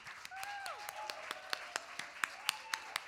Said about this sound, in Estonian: et nüüd oleks üks päris õige hetk teha üks aplaus.